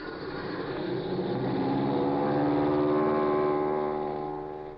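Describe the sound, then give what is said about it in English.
An airplane motor starting up: a steady droning engine with a layered harmonic whine that swells slightly and eases off near the end. “Here goes the motor.”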